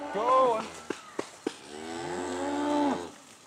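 Cattle mooing on a pasture where they stay year-round: two long, loud, low moos with rich harmonics, separated by three sharp knocks.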